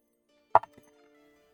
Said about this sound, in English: A jingling noise of the dice.